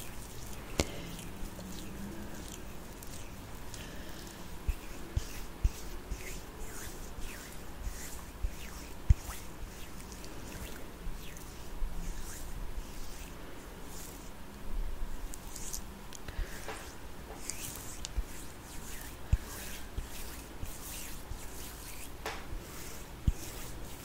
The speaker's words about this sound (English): Using the gua sha.